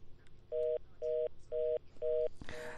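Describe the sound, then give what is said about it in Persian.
After a dropped phone connection, an electronic tone beeps four times in an even, steady rhythm, each beep short and identical, and the series ends in a brief noisy click. “فکر میکنم که ارتباط تلفن قطع شد”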